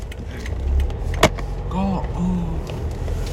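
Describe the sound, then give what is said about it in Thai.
Steady low road rumble inside a moving car, filling the whole recording at a constant level, broken by one sharp click midway and a few faint wavering tones over the drone. “อันนี้ผมอัดอยู่ระหว่างขับรถนะ”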